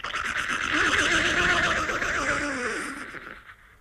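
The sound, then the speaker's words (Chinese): A horse neighing: one long, loud whinny that wavers up and down in pitch before fading out at the end. “有匹马就像飞起来一样，眨眼间来到两军阵。”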